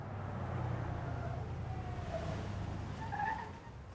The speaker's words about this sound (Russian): Подъезжает фургон ликвидаторов, останавливается перед машиной Сафронова.